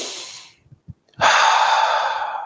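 A deep breath taken on waking while sitting on the edge of a bed: a fading exhale and a few soft sniffs, then a long, loud, airy breath that continues to the end.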